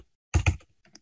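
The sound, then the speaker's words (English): Typing on a computer keyboard: two distinct keystrokes in quick succession, then a few faint taps, with silence around them. “what you generally want to do is just type in the county name into Google and type in the county appraisal district.”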